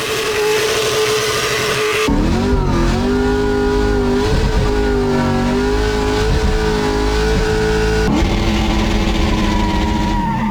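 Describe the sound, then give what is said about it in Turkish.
A McLaren Formula 1 car drifts at high speed at the Goodwood Festival of Speed in England. Its engine gives a loud, continuous, high-pitched roar whose pitch wavers and surges as it revs, with brief shifts in tone along the way. “McLaren'ın İngiliz pilotu pistte aracını yüksek tempoyla sürerek dumanlar çıkarttı.”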